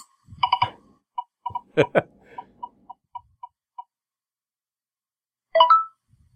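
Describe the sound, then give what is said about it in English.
Prize wheel spinning for a contest drawing of a set of IPA cups: a string of sharp ticks that spread farther apart as it slows down and stops, followed by a short louder burst. “So why don't you go ahead and spin the wheel and let us know who the winner of our voicemail B cups contest is.”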